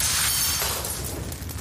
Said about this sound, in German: Walter griff sich einen Gartenstuhl und hämmerte das Fenster ein.